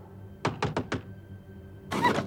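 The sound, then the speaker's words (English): Four quick raps of a hand on a door in a tight, even burst, followed after a short pause by a longer, louder, noisier sound. “A grey hand raps on the door.”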